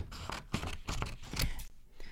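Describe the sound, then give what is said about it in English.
Scissors snipping through paper drawings to cut each into three pieces: a quiet, uneven run of many crisp cutting sounds close together. “And we wanna do that with each of our drawings. Okay? Cut each one into 3 pieces.”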